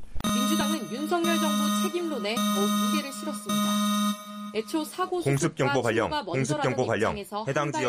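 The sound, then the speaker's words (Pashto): An emergency alarm on South Korean television warns people to take shelter. A steady, buzzing harmonic tone holds for about four seconds, then a voice speaks. “د جنوبي کوریا پر تلویزیون د خطر دا زنګ خلکو ته خبرداری ورکوي چې خوندي ځایونو ته پناه یوسي.”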